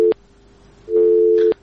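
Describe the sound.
A telephone busy tone after a call-in line is cut off: a steady mid-pitched tone sounds in pulses, a short burst and then a longer one, loud and alone.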